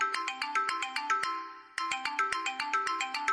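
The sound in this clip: A mobile phone rings with a bright, rapid electronic melody of plucked-sounding notes. The pattern repeats, breaks off briefly with one held note, then starts again at the same moderate loudness.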